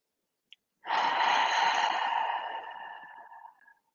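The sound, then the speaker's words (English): A slow breath exhaled through the mouth as a grounding, releasing breathing exercise: a faint click, then a soft, breathy rush of air lasting about three seconds that gradually tapers away. “If you want a more grounding, kind of releasing breath, then you want to exhale through the mouth. So, how will this look? I'll do it now.”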